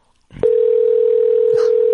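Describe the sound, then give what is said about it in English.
A steady, unbroken mid-pitched telephone line tone begins after a short muffled thump and holds evenly to the end. “You know she's looking at the phone. This keeps ringing.”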